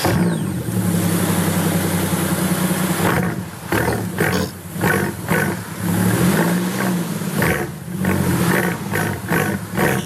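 A Mercedes G-Class 65 with a twelve-cylinder combustion engine drones loudly and steadily, then gives a run of repeated throttle blips and revving surges that rise and fall one after another.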